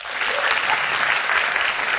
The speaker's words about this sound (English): clap here if you are in now or are studying to be in the film industry.